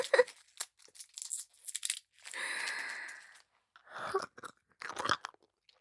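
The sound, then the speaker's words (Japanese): Crunching and sucking on a hard candy: wet clicks and crackly bites in short bursts, with a longer crinkly, breathy stretch in the middle, all fairly quiet and close. “飴舐めまーす。”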